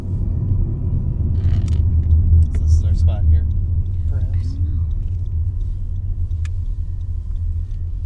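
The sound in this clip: Steady low rumble of a car driving along a road in rural Lake County, Center Township, between St. John and Crown Point. The road noise holds even and loud throughout, with a faint voice briefly rising over it.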